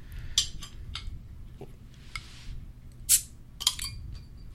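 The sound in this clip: Glass clinks and a soft burst of hiss as a bottle of Weihenstephaner Hefeweissbier is opened, with a few sharp bright chinks scattered over a faint background.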